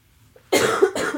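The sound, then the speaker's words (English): Two harsh coughs from one person, the first longer and the second coming shortly after, loud against near silence. “I'm so sorry for these coughs, y'all. This is so hideous.”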